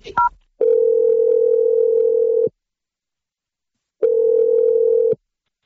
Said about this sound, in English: Okay, I'm just going to dial the number. Here we go.